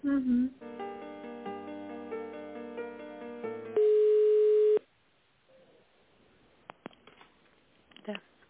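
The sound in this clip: Electronic telephone line tones play while a business call is put through to a chief accountant: a stretch of steady stepped tones, then one loud, unbroken beep about a second long, followed by quiet line hiss with a few faint clicks. A brief voice sounds at the start.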